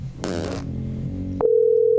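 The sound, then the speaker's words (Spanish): A telephone call ringing with no answer: a steady electronic ring tone starts partway through and holds to the end, following a stretch of other louder sound. “Vamos a llamar a Doña Luz Estela.”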